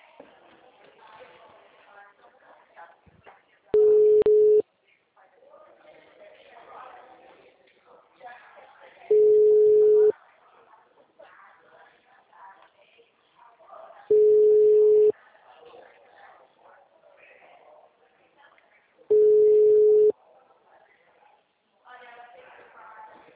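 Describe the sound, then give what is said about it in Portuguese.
Telephone ringback tone on a call that goes unanswered: four long, steady mid-pitched beeps spaced about five seconds apart, with quiet talk continuing between them. “Alô? Bom dia, é o Elbi? O número não responde.”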